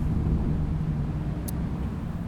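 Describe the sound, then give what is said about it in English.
Traffic noise from cars passing by outside: a steady, dense low rumble that holds at an even level throughout, with no single distinct pass-by standing out. “the cars, the sounds of the cars that pass by, I would say that as well. It does, you know, you still can hear a little bit from the outside noises”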